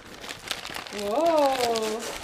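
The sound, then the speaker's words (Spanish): Christmas gift wrapping paper is crinkled and torn open during a live present-opening, a dry papery rustle and rip, with a voice speaking over the second half. “No quiero romper el papel, pero lo voy a romper.”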